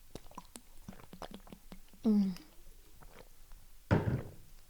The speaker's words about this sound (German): Und ich muss mal kurz einen Schluck trinken.